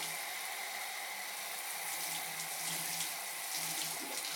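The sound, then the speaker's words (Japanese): Warm bath water poured from a shower over someone's back, a steady, even rush of running water that continues without a break for the whole stretch, with no talking. “ちょうどいいお湯になったね。後ろからかけていくよ。”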